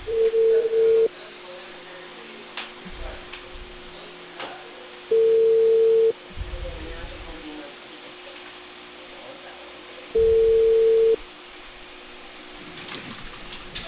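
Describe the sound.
Ringback tone on an outgoing phone call from a cable company to a customer. Three steady mid-pitched beeps, each about a second long, are evenly spaced by roughly four-second gaps of faint line noise.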